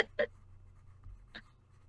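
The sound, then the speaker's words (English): A pen writing something down: a few faint, brief scratchy strokes on a quiet background, with pauses between them. “Writing that down.”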